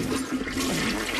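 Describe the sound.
A toilet flushes with a steady, loud rush of swirling water that holds at an even level throughout.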